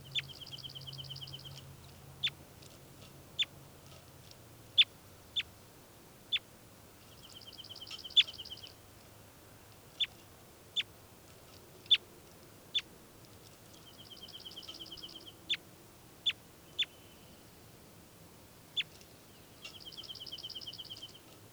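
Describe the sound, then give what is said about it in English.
Bird calls ring out as many sharp, high chirps at irregular intervals, mixed with several buzzy trilled phrases, all faint over a low, steady background hiss. “So recording again, bird 405.”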